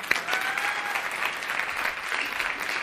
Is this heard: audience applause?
yes